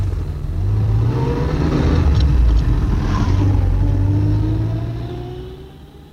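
A car drives off, its engine a loud, steady mid-pitched hum that climbs slightly as it gathers speed, then fades away over the final second.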